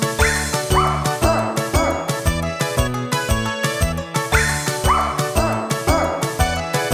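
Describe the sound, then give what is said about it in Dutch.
Dogs bark in rhythm as a singing dog choir in a children's song, with a poodle and a Pekingese among them; many short, pitched yips and woofs follow a bouncy melody over steady musical backing. “Er kwam ook nog een poedel bij. Die blafte toen de altpartij.”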